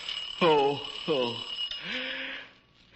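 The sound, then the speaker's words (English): An alarm clock rings as someone is woken: a high, continuous metallic ringing that runs throughout, with a voice sounding over it. “Why don't somebody answer the phone? That isn't the phone. That's the alarm clock.”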